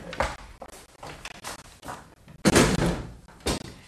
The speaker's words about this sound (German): Bitte schließen Sie die Fenster.